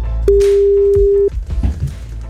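Telephone line tone as a radio station dials a listener: one steady, bright tone holds for about a second and cuts off, followed by a few clicks and faint line noise.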